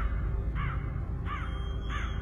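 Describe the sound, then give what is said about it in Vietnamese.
Crows caw in three harsh, evenly spaced calls, each short and raspy, standing out over a steady, low rumbling background. “Tiếng quạ kêu, tiếng gào thét làm cho đầu óc của bà quay cuồng.”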